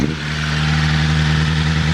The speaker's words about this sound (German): Darf ich mal Gas geben? Selbstverständlich. Jetzt wird kleiner Jungentraum wahr. Gang rausmachen ist ganz wichtig.